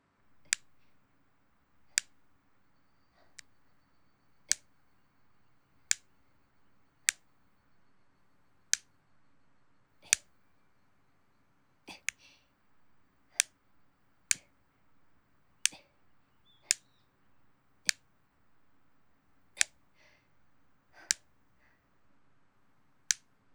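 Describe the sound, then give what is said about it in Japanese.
A nail clipper trims a boy's hard nails, making many crisp, sharp clicks spaced at a steady, unhurried pace over near silence. “あんまり深爪しちゃうと変な風に伸びて指を傷つけることがあるので、揃える程度に。”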